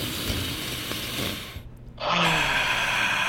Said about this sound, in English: Let's relax our entire body as we breathe in 3, 2, 1, all the way in. And the full release. Oh, yeah, let everything go with that one. And all the way in one more.